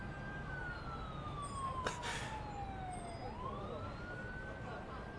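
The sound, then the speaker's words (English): Emergency siren wailing through New York City traffic. Its pitch slides slowly down, then turns and rises again over a constant broad rumble of traffic, with one brief noisy burst partway through. “That's New York traffic.”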